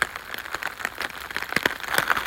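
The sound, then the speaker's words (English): Rain falling while the sun shines, many irregular drops pattering sharply on a surface at an uneven rhythm, fairly quiet and heard alone without voices. “The rain's still falling, but it is definitely getting brighter.”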